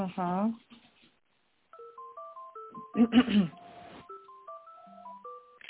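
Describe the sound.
Telephone tones during a call transfer, a string of short electronic beeps stepping up and down in pitch, with brief voices at the start and midway through.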